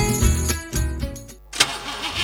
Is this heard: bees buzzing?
no